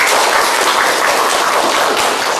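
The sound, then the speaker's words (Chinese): An audience claps to welcome presenters before a team demonstration of emergency care. The applause is loud, dense and unbroken, holding a steady level from start to finish. “来进行展示，大家掌声欢迎。”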